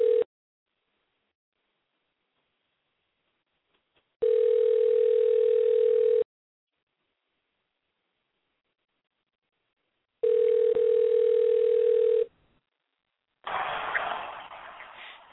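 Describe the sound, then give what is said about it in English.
Telephone tone heard while a caller is being dialed in: a brief burst at the start, then two steady, even-pitched tones of about two seconds each with silence between, ending in a short rush of hissing line noise. “Let me see if I can dial in here and see if she'll join us.”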